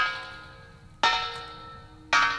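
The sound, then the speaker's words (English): A front doorbell rings with resonant metallic bell strokes. One tone is already fading as another is struck, and a further stroke follows, each ringing out and slowly decaying. No voices. “Now I've rung the front doorbell.”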